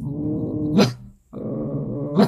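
A dog growls as a warning: two sustained low, rumbling growls separated by a short pause, each ending in a sharper, breathy burst, loud and with no voices.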